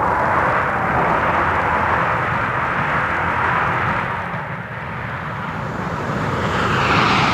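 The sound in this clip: Bomber aircraft roar at a military airfield during frequent takeoffs and landings. The engine noise is loud and continuous for several seconds, dips briefly midway, then swells again.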